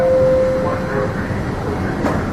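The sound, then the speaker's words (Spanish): Subway train doors closing at a station: a steady held tone for about a second over constant train rumble, then a brief knock near the end. “The doors are now closing. Stand clear of the doors. Please stand clear of the doors.”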